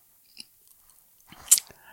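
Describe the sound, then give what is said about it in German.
Someone crunches on a snack: one sharp, crisp bite followed by a few softer crunching chews, faint at first and then louder. “nochmal schnell knuspern”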